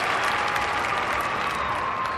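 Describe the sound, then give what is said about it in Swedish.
Dense, steady applause from an audience greeting someone walking onto a stage after a TV-style host introduction, loud and continuous throughout with no distinct voices. “Så kom jag in och förväntade mig stora applåder när jag äntrar scenen.”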